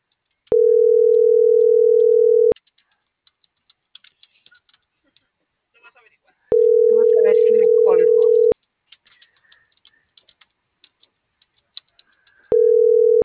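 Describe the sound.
A telephone line gives a busy signal after a dropped call, sounding three steady mid-pitched tones about two seconds long separated by long quiet gaps, with faint voices and scattered light keyboard clicks in between.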